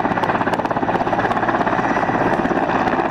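A national army helicopter flies over Helmand, its rotor beating a fast, steady thudding pulse over a loud, dense engine roar that holds level throughout.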